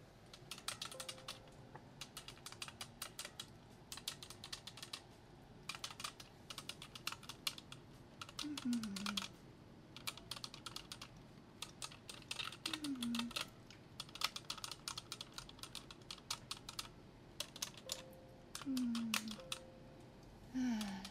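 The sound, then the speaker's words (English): Notes are typed on an office computer keyboard in quick bursts of light key clicks separated by short pauses throughout. “I got a few notes to type up anyway.”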